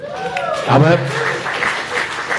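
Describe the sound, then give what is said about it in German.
Applause after a quiz answer, with brisk clapping mixed with voices that rise over it briefly near the middle. “Das ist ein Applaus wert, finde ich.”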